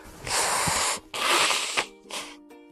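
Nose blowing by a man with a cold, close to a clip-on lapel microphone: three loud, breathy, noisy blasts, the first two long and sustained, the third short and softer.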